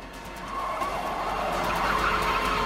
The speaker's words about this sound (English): A police car going the other way passes them.